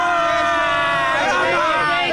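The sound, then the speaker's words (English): A crowd of England football fans in a bar in central Atlanta, many voices shouting and hollering together in a loud, continuous roar with overlapping calls. “We're down here in central Atlanta where the Hudson Grill, full of England fans. Give us a cheer, guys.”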